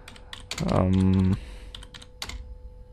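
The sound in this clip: Scattered keystrokes tap on a computer keyboard in short irregular bursts of clicks, broken by a brief voiced tone in the middle.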